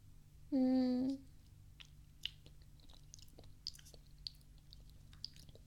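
Faint chewing of a sweet food made with brown sugar: a short hummed tone, then soft, scattered crunchy mouth clicks in near quiet.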